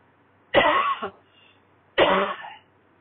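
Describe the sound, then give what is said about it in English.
A person with a tickle in the throat clears it with two harsh coughs, each a short rough burst separated by a moment of near silence. “Have a tickle in my throat.”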